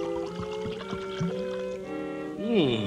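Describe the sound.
Fermented kumquat juice and rainwater punch with pawpaws floating on top is poured from a punch bowl: soft trickling and gurgling over a steady tonal background, swelling into a louder gurgle near the end.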